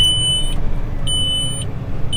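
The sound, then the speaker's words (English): A tractor's auto-steer system beeps while planting in a hilly field. Evenly spaced, high electronic tones, each about half a second long, repeat over a low, steady engine rumble. “getting the auto steer going here today too. So, beeping along, but trying to get straight rows going out here too.”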